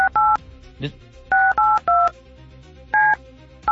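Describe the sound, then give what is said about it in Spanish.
Touch-tone telephone keypad dialing as a call is redialed: about six short, loud electronic beeps in an uneven rhythm with gaps between them. “A ver, vamos a volverle a marcar a ver si se quita la onda.”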